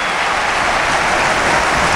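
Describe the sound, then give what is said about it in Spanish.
A football crowd at Mestalla stadium applauds its team after conceding a goal to Real Sociedad. The dense, steady wash of clapping stays at constant loudness, with no distinct individual claps standing out. “Ahora reacciona Mestalla y aplaude al equipo.”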